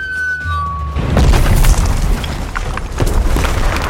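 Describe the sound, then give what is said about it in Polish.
A bomb explosion sound effect: a thin whistling tone dips slightly in pitch, then a loud, deep boom bursts into a heavy rumbling roar that goes on for several seconds. “Mogę na przykład podpalić nasze studio. Albo spuścić na nie bombę.”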